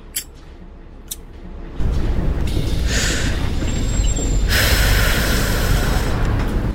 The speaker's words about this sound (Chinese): 756公车进站